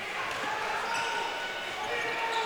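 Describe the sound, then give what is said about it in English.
A basketball is dribbled by a player on the right wing during a game, the bounces mixed into steady crowd noise under ongoing commentary. “Williams guarded on the right wing by Thomason. He gets around Thomason on the dribble”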